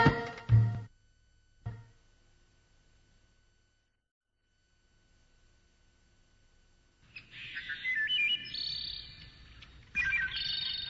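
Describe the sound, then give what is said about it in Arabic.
A caged sparrow sings in bright, high twittering chirps that come in two bursts in the latter half, after a near-silent stretch broken by a few dull thumps at the start. “انظر إلى هذا العصفور، كم هو جميل، لكن لماذا تحبسه في القفص؟ كي لا يهرب، أريد أن أستمتع بغنائه الجميل.”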